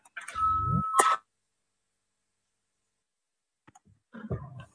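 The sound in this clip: A bell rung before a parliamentary vote sounds as one electronic chime tone lasting about a second. Silence and a few faint clicks follow.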